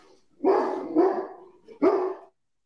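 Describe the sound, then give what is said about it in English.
A pet dog barks three times, short loud woofs with a pause before the last one, heard alone without talk. “He's still barking. I'm sorry. Go lay down.”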